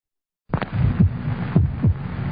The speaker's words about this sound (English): This is the sound of a human heart. It will beat 72 times in this minute.